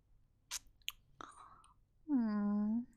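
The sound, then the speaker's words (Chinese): Someone chewing food with a few wet, sharp mouth clicks and smacks, followed by a sustained hummed voice. “要我现在吃进去吗？”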